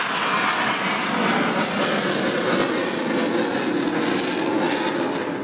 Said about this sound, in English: He flew up from Tyndall today, and as you can see, he's got his wheels down. He's waggling his wings.